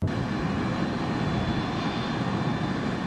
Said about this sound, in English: It was a moment filled with grief and sorrow when an aircraft containing 74 bodies of the 81 South Africans who died in Lagos landed on the tarmac at Waterkloof Air Base in Pretoria.